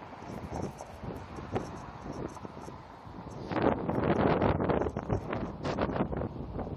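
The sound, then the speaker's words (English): Wind blowing straight into an unprotected microphone outdoors, a low buffeting rumble that swells into stronger, gusty bursts in the second half. “Wind is going to be wonderful, I'm sure. It's blowing right in my face.”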